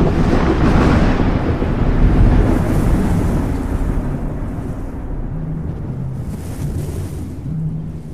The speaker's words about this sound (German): Der Sturm hatte noch immer nicht nachgelassen.